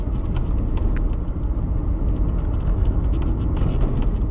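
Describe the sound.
A car drives at about 30 mph, giving a steady low engine and road rumble heard from inside. The drone stays fairly even with no clear rise in pitch.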